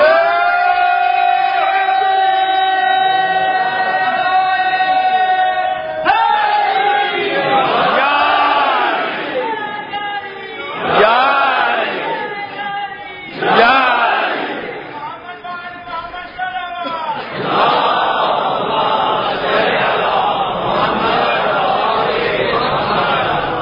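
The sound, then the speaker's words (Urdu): A crowd at a Muharram gathering raises the Haidari slogan in several loud collective shouts, each burst of many voices swelling and dropping back, following a steadier sustained sound at the start. “جب تک وہ حیدری نعرہ نہیں لگے گا میری آواز نہیں نکلے گی.”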